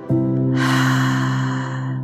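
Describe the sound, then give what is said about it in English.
A deep, airy breath during a guided relaxation exercise, a soft rush of air lasting under two seconds over a steady, low sustained musical tone. “Take a deep breath in. Let it out slowly.”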